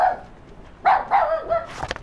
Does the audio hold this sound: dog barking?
yes